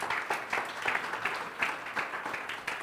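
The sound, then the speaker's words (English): An audience applauds a young woman as she comes up to speak after a pastor's introduction, with steady, dense clapping throughout, fairly faint. “You guys give her a hand as she comes.”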